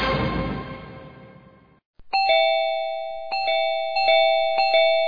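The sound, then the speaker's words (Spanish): A doorbell rings four times in quick succession, each press giving bright, clear electronic chime tones that ring on and overlap, loud and alone. “¿Pero quién timbra como loco?”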